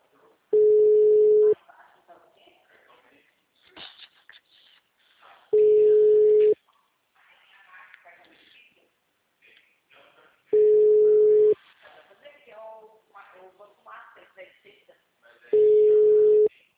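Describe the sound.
The ringback tone of an unanswered phone call repeats as a steady mid-pitched tone. Four one-second tones are spaced about five seconds apart, and a voice talks in the gaps between them.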